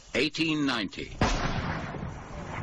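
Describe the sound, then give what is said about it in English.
A bomb explodes in a London East End alley in 1890, a single loud blast with a long rumbling decay, preceded by a short shouted voice. “Bomb goes off in East End! Read all about it! Bomb goes off in Fish Alley in the East End!”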